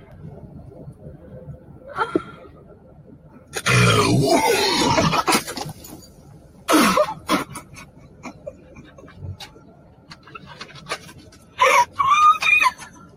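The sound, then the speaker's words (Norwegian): Small, faint moaning from a person with an aching tummy, heard as a few short vocal bursts separated by quiet gaps. The middle ones are louder and the last ones are strained and higher. “Hør på det lille stønnet.”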